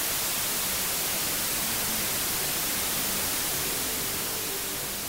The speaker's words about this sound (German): Das ist weißes Rauschen. Es enthält alle hörbaren Frequenzen gleich laut und erscheint uns deswegen unangenehm, ohne Struktur.